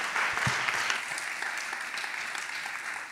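Applause from an audience at a church service, a steady wash of clapping that stays fairly soft and tapers slightly toward the end.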